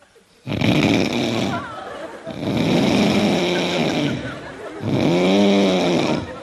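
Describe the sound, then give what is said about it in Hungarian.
A voice imitates a person snoring in a train compartment: three long, loud, rasping snores with short pauses between them. “fölébresztik saját magukat, és körülnéznek, hogy ki horkol. Körülbelül így csinál.”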